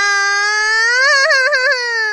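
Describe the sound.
A child cries loudly in one sustained wail. It starts steady, climbs in pitch and then wavers with a trembling, sobbing quiver before holding on.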